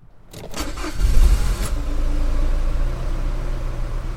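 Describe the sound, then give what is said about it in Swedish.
A white Ford car drives out of a garage on a snowy December morning before sunrise. Its engine kicks in quickly and settles into a steady, low rumble. “Solen har ännu inte gått upp när en vit Ford kör ut från garaget in till en gul tegelvilla i utkanten av Örebro.”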